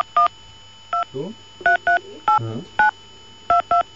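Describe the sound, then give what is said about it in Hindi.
Telephone number being dialed on a keypad: about eight crisp, steady touch-tone beeps in an uneven rhythm, with brief voice sounds in between. “उसके बाद में हमने contact करने की कोशिश करी मिस्टर घनश्याम जी से.”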